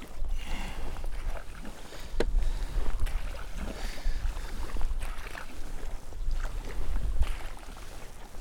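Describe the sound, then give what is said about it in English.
A kayak paddle dips and splashes in rhythmic strokes on Upper Loch Torridon against a keen headwind, with steady wind noise rushing over the regular strokes. “there's quite a keen wind blowing me into it. I'm not paddling very wisely at the moment, to be honest.”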